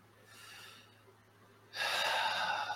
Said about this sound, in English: Close your eyes. Okay. Take a deep breath.